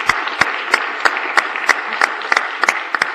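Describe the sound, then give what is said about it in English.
Applause in a state senate chamber welcoming visiting students: a steady patter of many hands clapping, with sharper individual claps popping out at irregular moments throughout. “If the body would please welcome these young, bright students to our state senate, that would be wonderful. Let's all give a special welcome to these fine young people with Girls Inc. From St. Louis.”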